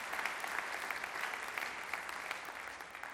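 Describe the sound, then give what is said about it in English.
A church audience applauds during a service, with brisk, overlapping claps forming a steady wash of sound that holds its level from start to finish. “you get your own applause, so thank you.”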